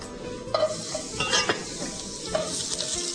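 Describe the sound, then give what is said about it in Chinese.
Garlic sizzles in a small amount of oil as it is stir-fried before bitter melon goes in, giving a steady crackling hiss broken by several sharp spatula scrapes and clinks against the pan. “我们首先把这个蒜头呢放下去爆香啊、哦，蒜头爆香之后不要烧焦”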